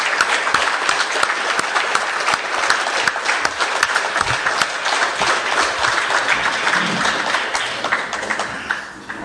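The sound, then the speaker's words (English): Standing ovation after a banquet speech: dense, steady clapping from a large audience on its feet, sustained evenly throughout and easing slightly at the very end. “Standing ovation, folks, for a magnificent banquet speech. Yeah. This audience is on its feet.”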